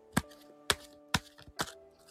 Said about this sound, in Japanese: それではね、シャッフルします。